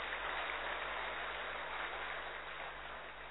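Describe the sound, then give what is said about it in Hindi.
An audience claps to welcome a speaker at a gathering, a dense, even patter of many hands that stays fairly soft and tapers slightly at the end. “तो हम सभी करतल ध्वनि से दीदी का स्वागत करेंगे।”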